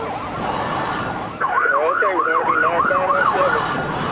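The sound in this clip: Police cruiser siren during a car chase, wailing in a rapid, regular up-and-down pattern over a steady rush of car and road noise, starting abruptly partway through.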